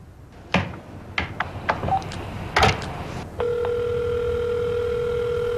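A telephone call is placed: several sharp clicks and taps of a handset and keypad, then a steady, continuous electronic line tone that holds to the end.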